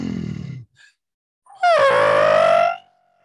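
A man in bed imitates loud, heavy breathing through a deviated septum. A short, low, rasping exhale comes first. After a pause, a long, loud, nasal wheeze follows, whining almost like a howl, then cuts off.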